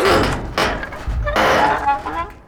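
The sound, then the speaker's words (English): Heavy thunks and bangs of a stuck hatch being forced open, with a few loud, hollow impacts spaced apart, each followed by a short rattling decay. “I'm trying to open the hatch, actually. Well, it's not budging.”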